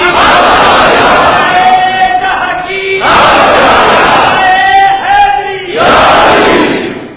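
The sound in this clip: A crowd chants slogans in unison at a speech, with three loud shouted surges and a single voice calling out in the gaps between them.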